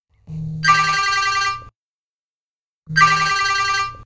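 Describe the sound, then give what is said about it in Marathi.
Telephone ringing on an outgoing call. Two long, buzzy ring bursts are separated by a pause of about a second; the second is cut off at the end. “आज आत्ता आधी मृणुमयीला phone करते”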